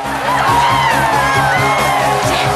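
A stadium audience cheers wildly after a stunt car lands on the tilted bed of a truck. Loud, continuous roaring cheers and scattered whoops and shouts hold steady throughout.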